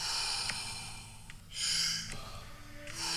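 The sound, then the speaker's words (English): Continuous circular breathing in and out during a guided breathing exercise. A few airy, hissing breaths swell and fade in waves with no pause between them, the later ones louder. “Make it circular. Pulling in and letting go. Just keep on going.”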